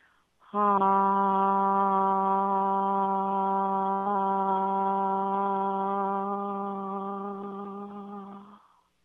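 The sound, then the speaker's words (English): A single voice holds a mid-range, open-mouthed "ah" tone for about eight seconds, steady and rich in harmonics, then slowly fades as the breath runs out. “So those ah tones, you just sustain that sound all the way to the end of your breath.”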